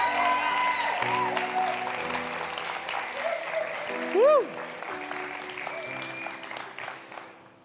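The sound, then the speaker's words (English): Audience applause at a one-year anniversary celebration, a steady wash of clapping that runs throughout alongside sustained musical tones and a voice, with a brief louder swell near the middle. “Come on, give him a hand.”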